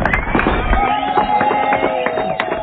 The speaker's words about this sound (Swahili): Ongeza makofi tena ukiwa umesimama. Tena na tena.